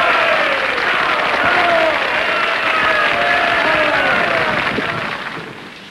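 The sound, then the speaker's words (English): An audience at a banquet gives Thomas Edison a standing ovation. Dense, sustained applause from a large crowd keeps an even level for several seconds, then eases off toward the end. “Tom rises from his seat. The audience gives him a standing ovation.”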